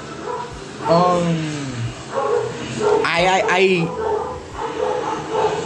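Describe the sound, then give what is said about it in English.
Dogs barking with yips and whimpers, a few bursts of rising and falling whiny cries that come and go under ongoing talk. “These dogs, man. I hate dogs, but I hate when dogs do this. It's genuinely annoying.”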